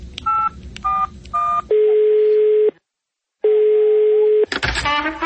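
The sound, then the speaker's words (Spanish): A touch-tone telephone dials a call: three short beeps, then two long, even ringing tones separated by a gap of silence. A voice begins right at the end. “¿por qué no llamamos a Emilio Tapia a ver si nos contesta o la contestadora que nos dice?”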